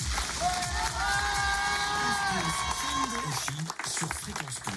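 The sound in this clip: A TV studio audience cheers after being warmed up by a warm-up host, with loud continuous crowd noise, shouting voices and applause, including drawn-out vocal tones, that thins out toward the end.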